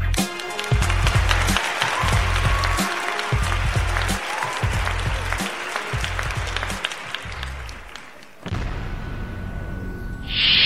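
A live studio audience at a comedy show taping applauds with sustained, dense clapping that dips briefly near the end and then picks up again.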